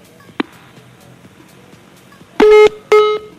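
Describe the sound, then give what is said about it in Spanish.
Two telephone beeps as a phone call during a Mexico City interview cuts off. A faint click comes first, then two steady mid-pitched tones separated by a short gap. “Se nos cortó la llamada con el licenciado Mauricio Tabe Echartea”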